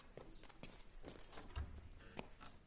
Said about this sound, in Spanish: Camina por la calle con los fardos a cuestas.